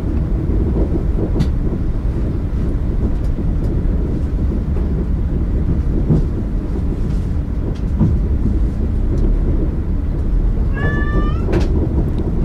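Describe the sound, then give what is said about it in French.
A single brief cat meow rises near the end over loud, steady train rumble. The cat is on a leash and sits on a seat aboard a passenger train. “que je me régalais de la vue du chat en laisse sur le siège à côté de moi”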